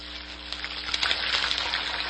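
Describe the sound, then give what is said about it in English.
Turkey deep frying in cooking oil gives off a steady sizzle, with fine, dense crackles and pops spattering throughout over a low, constant hum. “Like your turkey deep fried? Well, just for the holidays, you can take your used cooking oil to the City of Reading Household Waste Facility and dispose of it absolutely free.”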